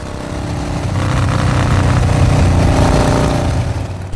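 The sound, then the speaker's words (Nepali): A new motorcycle's engine revs in a loud, rough drone. It swells over the first second, holds steady and dips slightly near the end, with no talk. “Wow, new bike”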